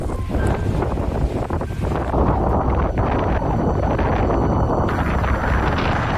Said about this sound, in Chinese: 随着一阵狂风袭来，原本寂静的沙海忽然躁动起来。